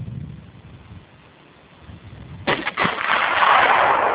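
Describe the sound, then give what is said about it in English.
A gunshot fired at a bullet-resistant glass target, 3/4 inch thick and 15 by 40 inches: after a quiet lull, a sharp report and a few quick cracks give way to sustained, loud rushing noise. “Target 5 is bullet resistant glass. 3/4 inch thick, 15 inches by 40 inches dimensions. Target 5, observers up. Ready. Fire.”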